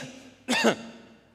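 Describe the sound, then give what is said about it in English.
A single short, rough cough from a person bursts out loud and harsh for about a quarter second against a quiet background. “if someone coughs, what do we normally do? We'll cough.”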